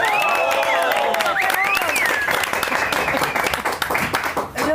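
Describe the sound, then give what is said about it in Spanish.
An audience applauds at a comedy show, with dense, loud clapping that holds steady throughout and high, sliding whistles over it early on. “Sí, gracias. Aplausos.”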